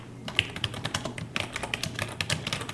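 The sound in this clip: Rapid, irregular keystrokes on a computer keyboard as someone types an internal report about a start-up festival, a steady run of crisp clicks with no talk.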